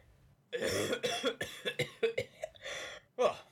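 One person coughs and clears their throat in a rapid run of many rough, uneven bursts, then pauses briefly before one last louder hack.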